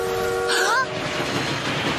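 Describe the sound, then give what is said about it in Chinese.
A train rolls along railway tracks with a steady low rumble, and a short tonal horn blast sounds near the start before the rolling noise carries on alone. “糟糕，火车比我们想的还要快。”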